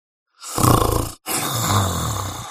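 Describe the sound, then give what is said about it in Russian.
A man snoring loudly: two long, rasping, roaring rumbles with a brief break between them, the first pulsing and the second steadier and drawn out. “Ответил тот богатырским храпом.”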